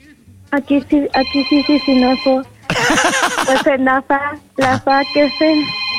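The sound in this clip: A telephone rings with an incoming call in bursts of bright, repeated ringing, interrupted by loud voices talking over it.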